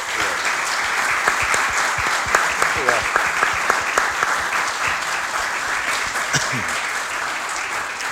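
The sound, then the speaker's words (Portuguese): An audience applauds a guest at a live show with dense, continuous clapping. The clapping stays at an even level for about eight seconds and thins a little toward the end. “Quero agradecer a todos e pedir uma salva de palmas muito grande para o João Cunha”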